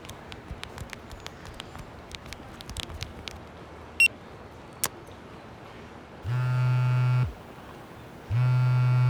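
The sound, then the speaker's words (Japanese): A mobile phone signals an incoming email. A couple of brief, high beeps come first, then two sustained buzzing tones, each about a second long, over faint background noise. “あら、メール？”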